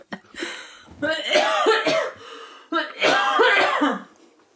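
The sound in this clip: Harsh, voiced coughing from someone who choked when alcohol went down the wrong pipe, coming in two long, loud fits separated by a short pause.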